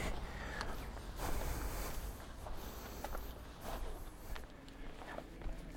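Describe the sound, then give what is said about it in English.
Soft, irregular footsteps of someone walking uphill on a path, faint and steady, with crows cawing now and then in the background. “So I'm just going to walk uphill and see what I can see.”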